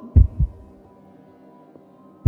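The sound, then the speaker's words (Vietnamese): A pounding heartbeat: a low, heavy double thump, then a quiet pause over a faint hum, then another thump at the very end. “Mỗi lần nó hạ giọng đếm một số thì tim tôi lại thình thịch một hồi.”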